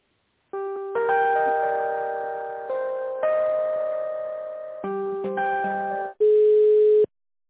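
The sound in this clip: Telephone tones play while a call is transferred: a series of sustained electronic tones shifting in pitch step by step, ending on a louder steady tone, with no talk.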